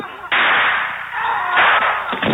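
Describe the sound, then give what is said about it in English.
A shotgun blast in a movie bar shootout bursts in suddenly, followed by a loud, dense, continuous roar of noise that stays heavy and muffled to the end. “Oh, there went shotgun.”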